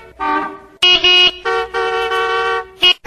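A car horn honks in a series of loud, brassy blasts of uneven length, some short and some held, with no talking.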